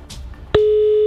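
A click leads into a telephone tone on an outgoing call, a loud, steady single-pitch tone that holds unbroken to the end after a brief, faint rustle.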